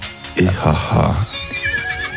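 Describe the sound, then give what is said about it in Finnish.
Neighing of a work horse, with a short run of voiced bursts followed by a high, wavering whinny, while a voice is also present. “ihaha, hepo hirnahtaa.”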